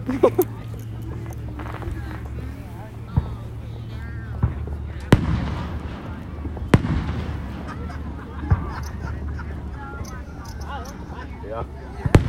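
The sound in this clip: Fireworks exploding at an Independence Day display: several sharp bangs at irregular intervals over steady low background noise, with people talking throughout.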